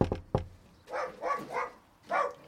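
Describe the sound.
Dogs barking at houses while campaigners go door to door: a few short, mid-pitched barks come in a loose run, with a couple of sharp impacts just before them.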